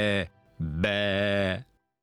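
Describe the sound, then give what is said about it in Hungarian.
A voice imitates a sheep's bleat: two drawn-out, nasal, harmonic calls with a short gap between them. The second call is longer and wavers slightly in pitch. “Egy birka meg bégetett,”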